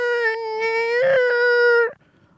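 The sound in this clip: A voice imitates a squealing tap being opened, holding one steady, wailing harmonic tone for about two seconds before it cuts off abruptly.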